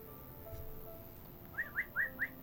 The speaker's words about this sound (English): Oh, listen to those birdies.